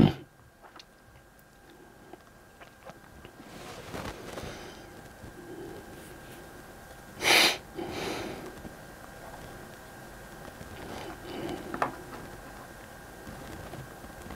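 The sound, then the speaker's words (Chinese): A person clearing the throat in one short, harsh, loud burst near the middle, with softer rasping noises around it against a quiet background. “再清静，再清静嗓子。”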